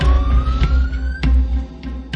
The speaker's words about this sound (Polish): To jest radiowóz, ale taki nietypowy.